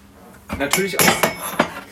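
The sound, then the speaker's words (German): A warm ceramic cup is lifted out of an espresso machine's cup warmer, heated to 55 degrees, with a few clinks and knocks of china against china and metal in quick, uneven succession. “Natürlich aus dem Tassenwärmer, ja. 55 Grad warme Tassen braucht man natürlich.”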